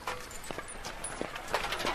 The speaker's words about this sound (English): Even with their shields and long metal spears clanking as they run down the highway, passers-by hardly seem to notice.